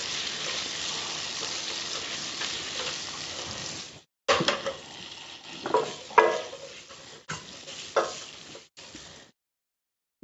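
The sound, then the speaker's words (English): Shrimp sizzle as they cook in a frying pan, a steady bright hiss broken by stirring scrapes and knocks, with a short gap partway through and a quiet fade before the end. “I'm going to just cook the shrimp before I do that, before we move. Gotcha. So cook down the shrimp.”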